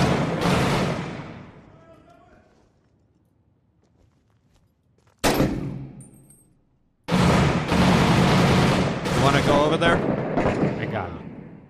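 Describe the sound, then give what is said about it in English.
Gunfire from the Iraq war video game Six Days in Fallujah. A heavy booming shot rings out with a long decay, followed by quiet, another sharp blast, and then a sustained run of loud, dense firing. “He's shooting at you. Building across.”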